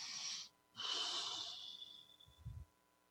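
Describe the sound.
A deep breath taken during a spoken energy exercise: a breathy rush that breaks off, then a longer, fuller breath that swells and slowly fades, with a soft low thump near the end.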